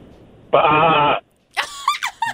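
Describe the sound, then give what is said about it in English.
A man imitates a ram's bleat with a sustained, wavering nasal "bah" lasting about half a second. After a short pause come several shorter, choppier vocal sounds. “He did a bah, like a ram? Yeah, I think a ram does that.”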